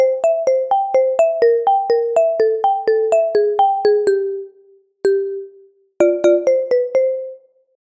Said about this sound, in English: The main melody of this piece is played on a marimba-type instrument, a mallet instrument. Let's give that a listen.